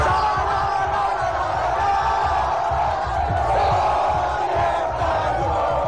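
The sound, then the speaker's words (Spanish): Jubilant crowds fill squares in Murcia after Spain's World Cup win over Argentina in extra time, producing a constant, loud wash of cheering, whooping and shouting voices. “Es la euforia vivida en plazas y calles de toda la comunidad por la nueva hazaña de La Roja, que se hace con su segunda estrella mundialista tras vencer a Argentina en la prórroga.”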